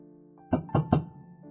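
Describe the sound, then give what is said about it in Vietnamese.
Three sharp knocks on a door from outside late at night, evenly spaced in a quick sequence, over a steady low hum. “Vừa nhấp ngụm nước thì bên ngoài có tiếng gõ cửa.”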